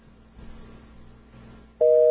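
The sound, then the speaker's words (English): A telephone end-of-call tone cuts in abruptly near the end: a loud, steady dual-pitched electronic hum after a stretch of quiet low background noise. “Well, it wasn't a busy signal in this case. It was end of call, I guess.”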